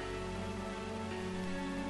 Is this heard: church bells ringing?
no